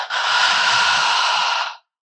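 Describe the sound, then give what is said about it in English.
A single deep breath taken during a guided breathing exercise, in through the nose and out through the mouth: a steady, airy rush lasting under two seconds, then silence. “take four deep breaths with me. Breathe in through your nose, out through your mouth”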